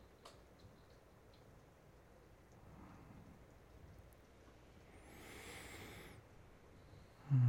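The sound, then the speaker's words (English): Storm rain heard indoors, a faint steady hiss of falling drops with a soft swelling rush midway and a sudden low thump at the very end. “Yeah, the storm can't hurt you in here. You're safe.”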